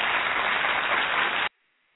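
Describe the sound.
Applause sound effect: a dense, uniform wash of clapping for about a second and a half that cuts off abruptly into silence.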